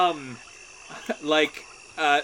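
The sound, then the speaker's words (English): A human voice imitates a frog's croak in a few short, throaty calls, separated by brief pauses and a soft background hum. “Ribbit. Oh, hello there, Mr. Frog. Ribbit.”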